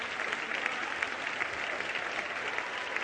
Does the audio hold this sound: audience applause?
yes